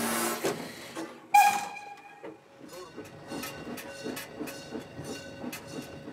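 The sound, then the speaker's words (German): Steam locomotive hissing as a trainee stoker fires it up: a sudden sharp burst of escaping steam, then a steady, rhythmic pulsing from the engine, moderately quiet throughout. “Bevor sie die Lok führen darf, muss sie ordentlich einheizen. Eine gute Heizerin hat ein Gefühl für die Maschine,”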